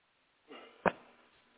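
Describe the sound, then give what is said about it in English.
A single short, abrupt burp bursts out after a soft rush of breath, with a faint tail of noise afterward. “Oh, somebody burped.”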